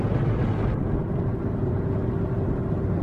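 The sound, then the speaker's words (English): A car drives along the I-80 East highway with steady road noise, a constant loud rumble and hiss that stays even throughout and has no distinct separate events. “driving on I-80 East.”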